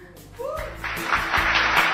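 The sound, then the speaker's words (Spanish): Applause from a studio audience at the close of a television program, starting after a brief voice and swelling into steady dense clapping that continues for the rest of the moment. “¿Hay aplausos para Guillermo y para Esteban?”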